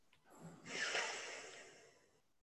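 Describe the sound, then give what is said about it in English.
A single long, soft, airy breath through the nose during alternate-nostril breathing, inhaling through one nostril and exhaling through the other; it swells quickly, then tapers off. “So now you inhale through the left and exhale through the right.”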